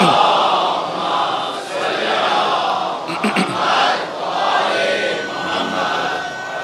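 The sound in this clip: An audience chants religious slogans during a sermon, a loud mass of voices rising and falling in waves and sustained throughout.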